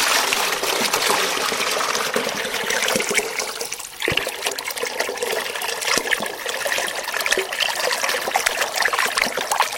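Water flowing from the outlet of an orchard irrigation channel into a 10-litre container: a loud, continuous splashing gush that holds steady for about ten seconds, with only a brief dip in the middle.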